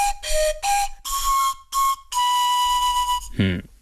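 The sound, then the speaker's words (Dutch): A trstenice, a traditional panpipe taken from an ethnographic museum display, plays several clear breathy notes, short at first and then longer, stepping between a few pitches and ending on one long sustained tone. “De trstenice, een soort panfluit.”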